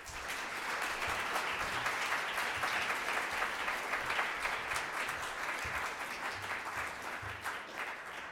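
An audience applauds after a philosophy professor is introduced before his lecture. The clapping is steady and sustained, holding an even level throughout and easing off slightly at the close.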